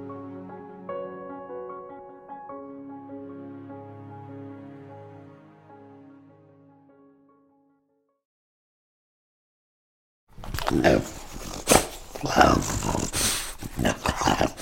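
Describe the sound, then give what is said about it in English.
A French bulldog snorting and growling in rough, wheezy bursts, loud and uneven, heard after a run of fading melodic tones and a few seconds of silence. “It's not exactly the most pleasant of noises. And the French bulldog, that's what you're listening to, isn't the most attractive of animals.”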